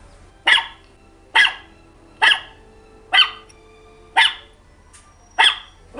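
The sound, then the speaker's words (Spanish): A pet dog barks at home, giving six sharp, loud barks at steady, evenly spaced intervals with nothing else heard. “era un perrito, mi perrito que está aquí en la casa, que ahora tengo una mascota, y ese es el timbre de mi perro. Entonces cada vez que él ladra yo lo reconozco inmediatamente”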